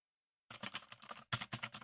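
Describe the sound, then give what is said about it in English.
A fully mechanical keyboard is typed on loudly after a moment of silence, giving a fast, dense clatter of key clicks that breaks briefly before the rapid typing resumes. “it is satisfyingly good to type on. I gotta say, it is really nice. Just fully mechanical, like clickety, clickety, clickety, click. And oh, hang on. You know what? Let's do a demo.”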